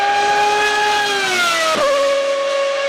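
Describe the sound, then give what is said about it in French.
A Formula One car with a V12 engine screams past, its high, piercing engine whine loud and steady before the pitch drops sharply as it goes by. A lower, sustained tone lingers afterward. “Il suffit d'avoir une F1 V12 qui passe et paf, Mathieu Chambellois est avec nous.”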